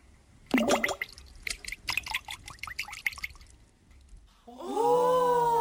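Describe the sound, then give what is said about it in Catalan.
A crown falling into a pond makes a burst of splashing and dripping water, a cluster of sharp wet impacts that tails off, followed by a steady tonal sound. “Oh! Li va caure la corona dins l'estany”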